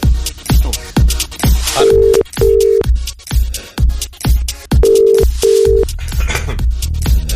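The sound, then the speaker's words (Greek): Ringback tone of an outgoing phone call: pairs of short, low, steady beeps that repeat, heard over louder percussive sounds. “Έλα, ρε Φέδρα, σήκωσέ το.”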